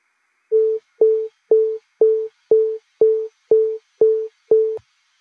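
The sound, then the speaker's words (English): A synthesized pinging tone rendered from a command-line script: nine evenly spaced pings, roughly two per second. Each has a sharp click-like attack and then a short, steady, mid-pitched pure tone, clean and alone. “if I then invoke this from the command line, just like you would with a Node.js script, we should hear our pinging tone.”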